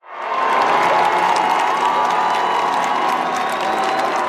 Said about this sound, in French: Le pape Léon XIV, encore une fois, acclamé.